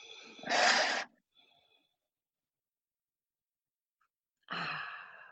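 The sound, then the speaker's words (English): A deep breath drawn in and then let out, two broad airy whooshes separated by a few seconds of silence, the exhale slightly longer and softer than the inhale. “take a deep breath in. And a deep breath out.”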